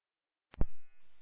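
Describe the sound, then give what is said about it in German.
A fire alarm panel buzzer sounding after a smoke detector false alarm triggered by cleaning agents: a brief click, then an abrupt, steady, harmonic-rich buzz that holds to the end. “wahrscheinlich durch Reinigungsmittel wurde der Rauchmelder 12.2 ausgelöst. Es ist ein Fehlalarm. Wir setzen jetzt die Anlage gleich zurück.”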